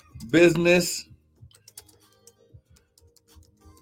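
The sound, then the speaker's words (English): Computer keyboard typing: sparse, irregular light clicks and taps, faint and scattered. They follow a brief spoken phrase at the start. “I'm just typing this for Instagram here”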